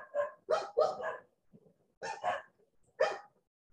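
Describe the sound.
A dog barks in short bursts: a quick run of barks, a pause, then a few more, moderately loud and without other sounds.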